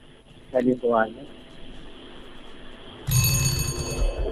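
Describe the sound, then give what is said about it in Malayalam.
A quiz show time-up alarm buzzer cuts in sharply about three seconds in and keeps sounding as a bright, sustained electronic ring. A brief voice is heard before it starts. “Alarm കേട്ട്. Alarm കേട്ടു. ഇനി പറയാൻ സമയമില്ല ചേട്ടോ, നമ്മുടെ buzzer man.”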